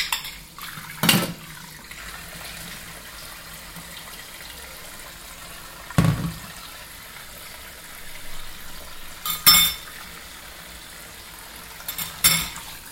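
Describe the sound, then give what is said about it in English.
A bowl is washed in a kitchen: a few sharp clinks and clatters of crockery stand out at irregular intervals over a low, steady background of water and handling noise. No one talks. “Let me go into the kitchen. I'm stepping into the kitchen. I'm washing the bowl.”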